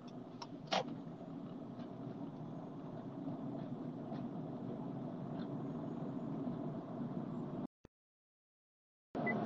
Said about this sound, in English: As I'm driving on my journey from California to Minnesota